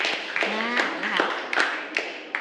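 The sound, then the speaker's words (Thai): Clapping by a class for a student's correct answer in a maths lesson, sharp claps at a fairly steady rhythm heard under ongoing talk. “ปรบมือให้กับคนแรกหน่อยค่ะ”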